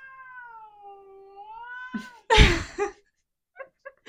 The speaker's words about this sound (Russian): Еще протяжнее просто стал. Так. Это наш соведущий. Это наш соведущий. Петр Черно-белый котик, кстати, да.